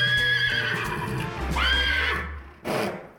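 A horse neighs in a loud, shrill, wavering whinny that breaks off near the end, followed by one short breathy burst.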